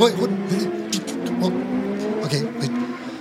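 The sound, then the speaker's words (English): Car traffic heard in a driveway while someone tries to pull out, with engine hum and passing-vehicle noise running under people talking. “And God, it's freaking traffic!”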